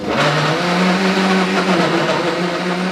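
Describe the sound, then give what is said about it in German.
A blender whirs steadily as it purees peaches, its motor giving a loud, constant droning hum with a sustained tone throughout. There is no talk over it. “Dann sind wir uns da einig und jetzt pürieren wir die Pfirsiche. Genau, die werden jetzt wieder püriert.”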